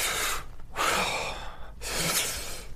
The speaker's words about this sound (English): You see how you heard a wheeze in me?